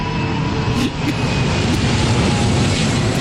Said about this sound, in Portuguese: Esse é o avião do salário mínimo. Passou.